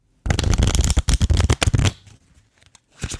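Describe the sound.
Playing cards are bridge shuffled: a rapid, crisp riffle of fluttering clicks runs for under two seconds, then drops to a soft settling, followed by a few quieter taps as the deck is squared.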